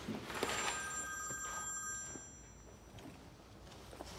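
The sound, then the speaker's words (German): A telephone rings with a steady electronic trill of bright, high tones for about two seconds before stopping. It is quiet, with faint background noise afterward. “Anruf für Franzi? Ja, oder von der Franzi.”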